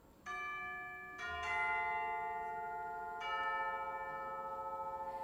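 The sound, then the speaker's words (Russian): Bells ring out from a tall white building, a few strong strikes each followed by long, bright, sustained ringing tones that overlap and fade slowly. “Тут в высоком белом здании зазвонили колокола.”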